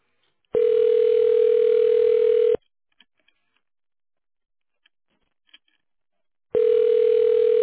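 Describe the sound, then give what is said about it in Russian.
A telephone ringback tone plays on the line while a call is transferred: a steady mid-pitched tone sounds for about two seconds, falls silent for about four seconds with a few faint clicks, then starts again. “Да, перевожу на линию. Оставайтесь, пожалуйста.”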